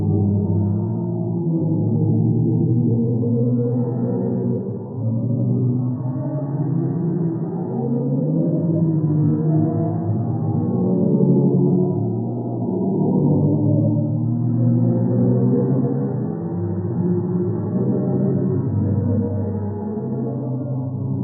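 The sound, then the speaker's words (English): NASA's sonification of a black hole: deep, eerie droning tones that swell and waver continuously, low and dense with no high content, sustained for about twenty seconds. “heard the sound of a black hole today. Did you guys hear the sound of the black hole? He did. NASA released it.”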